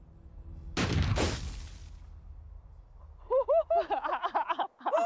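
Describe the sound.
A heavy .44 caliber gun fires with a loud, sharp blast and a booming tail, followed by a quieter second burst. After a short pause, excited voices cry out.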